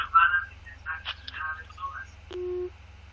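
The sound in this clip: Phone call ending: a muffled voice on the line, then a single short steady beep as the call disconnects, over a low constant hum.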